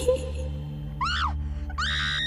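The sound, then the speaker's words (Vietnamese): A woman screaming in fright, two piercing high-pitched shrieks: the first arcs up and then drops away, the second is held high and steady, over a low sustained background drone. “hét ầm lên, bật ngửa ra sau.”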